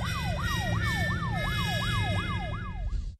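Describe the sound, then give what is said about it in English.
A police car siren in Washington, D.C. wails in rapid, regular up-and-down sweeps, about nine cycles, loud over a low engine rumble, then cuts off abruptly just before the end. “What's that sound? That, Anna, is the police.”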